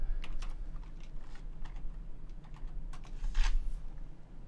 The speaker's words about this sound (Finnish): Nyt mä kirjoitan kyllä jotain väärin.